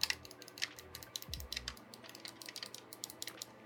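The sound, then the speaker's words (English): Many crisp, sharp clicks from game controller trigger buttons being pressed, coming in a quick, irregular rhythm with no talking over them, plus one brief low thump partway through. “So, uh, yeah, there's a distinctive audible click, just like a mouse.”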